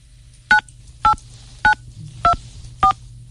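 Telephone keypad dialing tones, ending with the pound key, beep five times in an even rhythm, each short and clear over a low steady hum.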